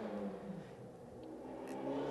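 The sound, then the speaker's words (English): Car engine revving outside, like a drag race: a steady, rough mechanical drone that holds loud throughout and swells slightly louder toward the end. “Uh, I'm not sure what road race to finish. Drag racing or something outside.”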